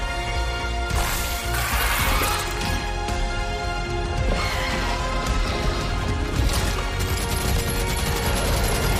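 Gatling gun firing in a strategy video game, a continuous rattling barrage of rapid shots broken by louder crashing bursts, staying loud for the whole stretch.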